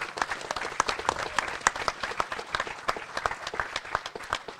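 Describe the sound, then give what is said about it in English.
Audience applause for the St Kilda Football Club signing up for an AFL Pride game: many dense claps forming a steady, even wash of sound with no voices over it. “Give them a warm hand because that's really good.”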